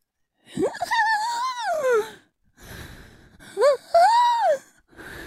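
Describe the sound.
A person vocally imitates laboured, wheezing breathing as heard through a stethoscope: strained, pitched gasps rise and fall in two main bursts separated by a short pause.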